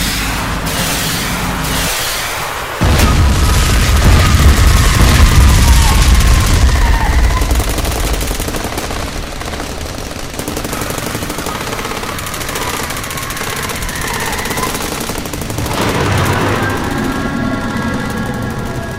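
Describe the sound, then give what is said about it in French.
Battle gunfire and explosions in an audio drama: loud, continuous rapid machine-gun bursts mixed with heavy booms roar almost without pause. “Allez, résistants, pour la liberté, feu à volonté!”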